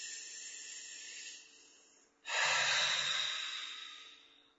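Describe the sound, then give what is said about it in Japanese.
A slow, deep breath taken during a relaxation exercise: a steady, soft airy draw in, then a brief pause, then a louder, rushing breath out with a low rumble that gradually fades. No talking. “はい、深呼吸。”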